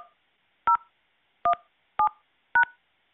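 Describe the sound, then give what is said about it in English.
Telephone keypad DTMF tones enter a four-digit voicemail password: four distinct short two-pitch beeps at uneven intervals over silence, after the tail of a tone at the start. “Enter the new password between 4 to 7 digits, then press pound.”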